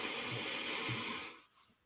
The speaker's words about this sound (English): Let's take a breath in.